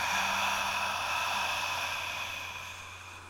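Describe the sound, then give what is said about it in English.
A long, deep exhale during a guided breathing exercise, a steady airy rush that slowly fades away over a few seconds above a faint constant hum. “Inhale for me. Deeply. And exhale, let it go.”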